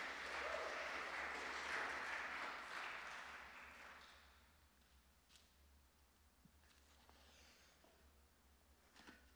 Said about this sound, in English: Let's give it up for Sarah. Let's welcome her up to the front.